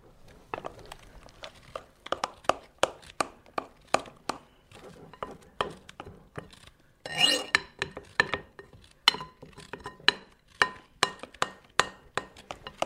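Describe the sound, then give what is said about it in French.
Clinking and scraping of a utensil against a bowl as cake batter is poured into a baking mould, a steady run of many sharp, bright taps and rasps, with a short denser scraping burst midway. “Alors on verse la pâte donc dans le moule.”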